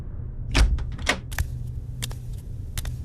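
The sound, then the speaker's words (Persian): A door opening in a room: a few faint clicks and rattles, like a latch and handle, over a low steady hum. “همش توی اتاق راه میرفتم تا اینکه صدای باز شدن در اومد.”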